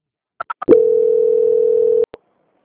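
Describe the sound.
Three quick beeps sound on a telephone line as a call is transferred, followed by one long steady tone lasting over a second. The tone cuts off with a brief click, and no voices are heard.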